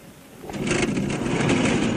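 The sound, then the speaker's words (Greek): An engine starter cranking as the starter is pressed: quiet at first, then a rapid, buzzing whir swells in and holds steady to the end. “Πάτα τώρα τη μίζα. Ποιος είστε? Τη μίζα, λέω, πάτησε τη.”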